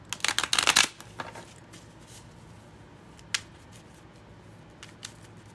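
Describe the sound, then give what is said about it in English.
Tarot cards are shuffled and drawn: a quick, crisp riffling burst opens, then a few faint, sharp snaps follow at intervals as single cards are pulled and laid down. “So starting off with Aries, we'll just pull a couple cards for you.”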